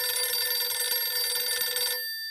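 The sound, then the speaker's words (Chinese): A telephone rings with a bright, warbling bell tone for about two seconds, then cuts off abruptly, signalling a call from a cavalry division commander at the front. “骑兵第四师师长刘春芳从前方打来电话”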